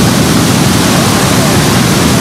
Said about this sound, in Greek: Από ψηλά ο Ζωνιανός ποταμός κατεβάζει τεράστιες ποσότητες νερού.